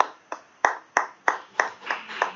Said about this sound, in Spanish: Yo le doy grande aplauso al Señor.